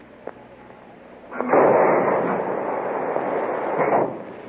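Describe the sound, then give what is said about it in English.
A torpedo being fired, as a sound effect: a brief click, then a thump at launch opening into a sustained, low rushing whoosh that holds for a few seconds before ending on another thump. “Mark torpedo, fire 1.”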